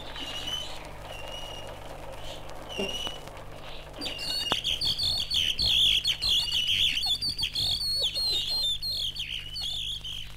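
Caged songbirds chirp and trill in a wood turner's workshop in Udine while the turner whistles in imitation to compete with them. Many bright, rapid high chirps pile up and grow louder over a steady low hum.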